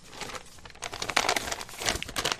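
Blank paper being set down and rustled, a run of dry crinkling and crackling bursts that grow louder toward the middle and again near the end, with no voices.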